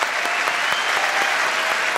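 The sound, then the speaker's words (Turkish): Audience applause on a show as a guest is sent off: a dense, even wash of many hands clapping, with some sharper claps poking through and no talk. “Alkışlarla gönderiyoruz Burak'ı.”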